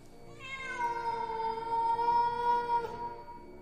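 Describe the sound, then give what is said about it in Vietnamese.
A black cat lets out one long, drawn-out meow, rich in harmonics and nearly level in pitch, held for over two seconds before it stops. “Vừa nói đến đây thì tự nhiên chúng tôi nghe tiếng mèo kêu đến rợn cả người.”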